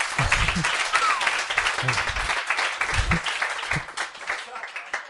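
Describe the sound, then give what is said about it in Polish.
Audience applause for an interpreter at a bilingual English-Polish gathering, steady clapping from many hands that runs throughout while a man talks over it. “Yeah, come on, give him a hand. He's doing great.”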